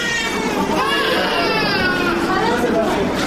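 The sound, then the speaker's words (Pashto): Crying of sick children with diarrhoeal illness at the provincial hospital in Tarinkot, a continuous, fairly loud mix of overlapping wails and sobs with no pause. “دا جړاوی د ترینکوټ په ولایتي روغتون کې د هغه ماشومان دي چې د نس ناستې په ناروغي اخته دي”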